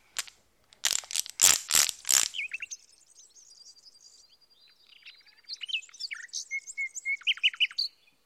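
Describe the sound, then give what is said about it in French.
Birds singing in tree branches: many high, quick chirps and warbled phrases, after a few loud, harsh bursts at the start. “De jolis oiseaux qui chantaient sur les branches des arbres.”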